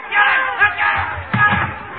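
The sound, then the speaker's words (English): An angry street mob shouts as it hunts down a man denounced as a traitor. Many voices roar together, loud and continuous, with surging peaks of yelling throughout. “The crowd. They're after me.”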